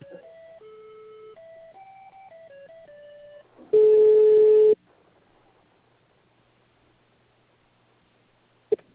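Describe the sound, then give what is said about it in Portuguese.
Telephone line tones after a dropped call: a run of short stepped beeps at changing pitches, then one loud, steady tone lasting about a second. Near silence follows, ending in a single sharp click. “Oi, caiu a ligação.”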